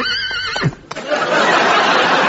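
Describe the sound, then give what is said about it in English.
A horse neighs in a high, wavering whinny that slides down to a low, throaty finish, followed by a steady broad rush of noise. “And here is the horse.”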